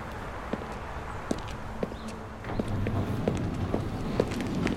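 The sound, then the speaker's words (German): Footsteps of two men striding through the large halls of a department store: light, evenly paced taps at a steady walking rhythm, faint against a soft background murmur that grows a little louder partway through. “Erhobenen Hauptes laufen die beiden Männer durch die großen Hallen des Warenhauses.”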